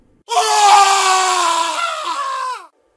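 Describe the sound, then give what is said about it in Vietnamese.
A man cries out as he is stabbed, a sound effect in a horror story. It is a single loud, drawn-out anguished scream held for over two seconds that drops in pitch as it ends, with silence before and after. “Tên cướp bất thần, vung dao đâm vào cổ Sinh. Chàng á lên một tiếng.”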